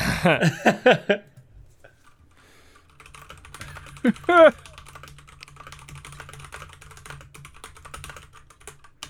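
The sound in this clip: Keyboard typing and faint clicking during a computer search, a steady run of light taps over the second half, with a voice at the start and another brief vocal sound in the middle.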